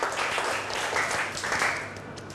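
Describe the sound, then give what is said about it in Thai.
Students clapping in a classroom for a classmate who volunteered an answer, a brief, fairly quiet patter of applause that tapers off toward the end. “โอเคปรบกันก่อนเร็วๆถือว่าเป็นผู้กล้า”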